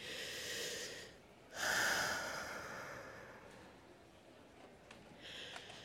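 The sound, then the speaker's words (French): A single deep breath taken alone, a loud breathy rush that swells suddenly after a quieter stretch and then fades slowly, with no talk. “Pour ce faire, respirons.”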